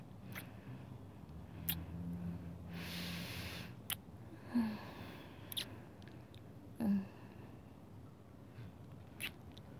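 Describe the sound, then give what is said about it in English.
Soft kissing on a chest: several faint, brief wet smacks and lip sounds, separated by quiet pauses, with no talking. “Well, right now I'm kissing your chest.”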